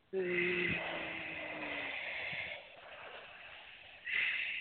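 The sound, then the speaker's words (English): A slow, deep breath drawn in and then released during a guided healing session, heard as a soft, airy hiss that swells, eases off and returns. “And just take a deep breath in with a good out breath.”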